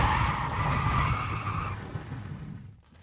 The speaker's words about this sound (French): Le véhicule s'arrête.